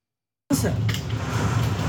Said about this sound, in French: Scène tournée tout à l'heure par des habitants de la ville de Poma. Ils sont chez eux, vous allez voir ça. La tornade est en train de passer sur le village, et voici ce qui se passe.